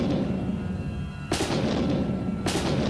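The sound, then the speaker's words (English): Soldiers fire guns on a crowd of colonists in Boston. Two sharp bursts of heavy gunfire cut into a continuous loud roar of noise. “They fired their guns.”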